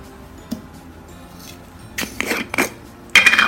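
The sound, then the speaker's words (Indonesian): Cut ingredients are dropped into a drinking glass, giving a few hard clattering clinks in quick succession and a sharper, louder clink at the end, over a faint background hiss. “Langsung kita masukkan aja ke gelasnya.”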